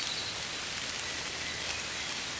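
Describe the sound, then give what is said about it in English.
Light rain falls in a forest as a soft, even hiss that stays faint and unbroken throughout, with no voices. “It is raining lightly, but it does not bother you. You can feel now the rain.”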